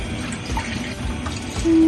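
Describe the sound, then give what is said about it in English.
Chicken broth is poured into a pan, giving a soft, continuous watery trickle and splash that holds at a steady moderate level. No talking. “Now you can add your chicken broth. I'm not going to do it all, though.”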